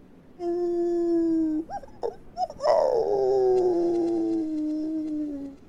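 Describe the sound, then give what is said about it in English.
Wolves howl in the distance on a clear night. One long steady howl gives way to a few short yips, then a second howl starts high and slowly slides down, loud and alone. “Them damn wolves eating bodies again. Sounds like it's a little way off.”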